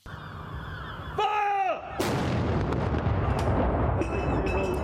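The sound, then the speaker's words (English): A military gun salute is fired in mourning for a prince: one heavy blast cuts in midway over steady background noise and leaves a long rumbling tail. “Gun salutes rang out across the United Kingdom in honour of Prince Philip, who died on Friday at the age of 99, from Woolwich Barracks in London to Hillsborough Castle in Belfast”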